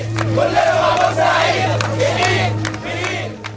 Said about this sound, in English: Here's the sound of Friday of protesters in Cairo supporting others in Port Said.